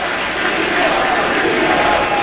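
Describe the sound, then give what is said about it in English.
A stadium crowd gives an ovation as an injured player is carted off during an NFL game between Seattle and Washington in light mist, a steady, loud roar of applause and cheering. “He is being carted off the corner tunnel on the near side, the Commander sideline, getting an ovation from the crowd.”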